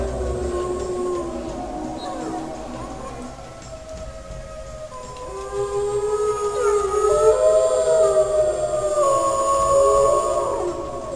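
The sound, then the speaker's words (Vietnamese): A mighty howl said to shake the mountains: long wavering tones with several overlapping pitches that glide up and down, sustained and moderately loud throughout. “Nhưng cái tiếng hú chấn động cả sơn lâm, khiến cho núi non đều phải run rẩy ấy, hào hùng như thế, oai nghiêm như thế.”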